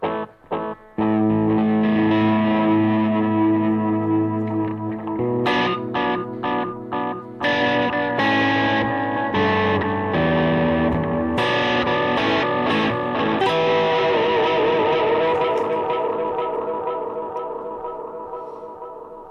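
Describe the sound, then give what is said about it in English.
Electric guitar played through a slower echo effect, loud sustained chords and ringing notes with trailing repeats, heavily effected and alone, the sound gradually fading near the end. “I've got a couple different echoes here. There's a slower one.”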